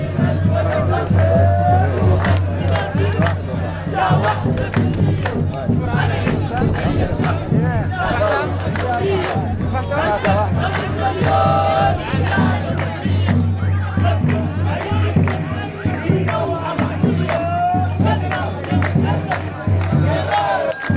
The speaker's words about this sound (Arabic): مظاهرات طلاب الروسيرس وصلت إلى مبنى المحلية مرددة هتافات تندد بالغلاء وارتفاع الأسعار. وأضاف المتظاهرون في هذا الخصوص: